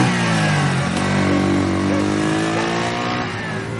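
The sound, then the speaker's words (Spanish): A motorcycle ridden at high speed by a young rider in black leather and helmet, heading toward a tree-lined residential area of houses, gives a loud, continuous engine roar with a shifting, revving whine that holds steady throughout. “pasar frente a ella el joven de la moto a gran velocidad.”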